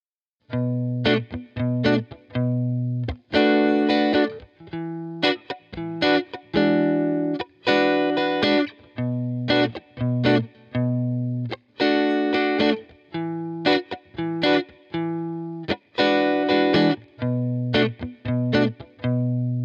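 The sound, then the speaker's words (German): A chord progression played in a loop, with many short, bright chord strikes repeating in a steady, even rhythm, the same pattern cycling again and again with no talk over it. “Ich spiele eine Akkordfolge im Loop.”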